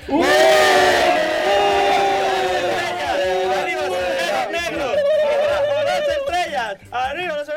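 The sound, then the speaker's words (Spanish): Crowd booing played backwards: a dense wall of many voices with sustained, warbling tones that swell and cut off unnaturally. It stays loud throughout, with a few brief drops near the end. “Entonces, en esa parte del universo, ¿cómo sonarían los abucheos? Pues así.”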